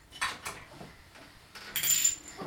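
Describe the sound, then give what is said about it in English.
A spoon clinking while food is served: a few light metallic taps and scrapes against dishes, quiet and with no voices. “A spoon. Can I have some yummy food?”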